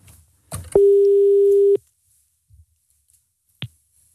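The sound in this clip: An outgoing telephone call rings out with a single steady ring tone lasting about a second, set between soft clicks, followed by a quiet gap and another click.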